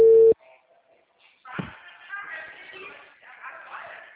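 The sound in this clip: A telephone line tone while placing a call: one short, loud, steady beep at the very start, then a voice talking.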